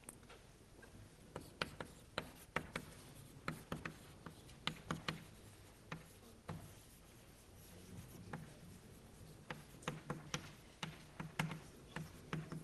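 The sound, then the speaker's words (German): Dots being written on a board: many sharp, faint taps and clicks in irregular bursts, separated by short quiet gaps. “also ich schreibe mal ein paar Punkte, um anzudeuten, dass da vorher auch noch was kommt.”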